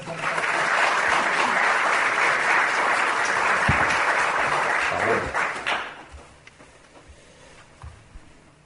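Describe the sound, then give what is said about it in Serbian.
An audience applauds to open a poetry concert, with dense, sustained clapping that holds steady for several seconds, then quickly dies away to scattered claps. “Pa da ga počnemo aplauzom.”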